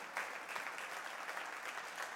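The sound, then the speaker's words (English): A church audience applauding, a dense, even wash of many hands clapping that holds steady from start to finish, fairly faint and without voices. “Let's really give him a hand clap.”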